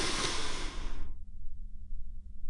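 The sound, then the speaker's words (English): A deep breath drawn in during a guided relaxation exercise: a steady, airy rush lasting about a second that cuts off abruptly, leaving near silence. “Now take that big, deep, healing breath with me. Ready? 3, 2, 1.”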